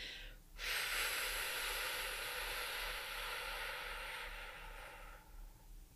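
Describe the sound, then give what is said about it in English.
A slow, controlled exhalation in a breathing demonstration: after a brief faint breath, one long, steady, airy outbreath holds an even strength for several seconds, then gradually fades away. “if I demonstrate a difference between a normal exhalation and one where I'm more in control of the breath, it could sound more like this.”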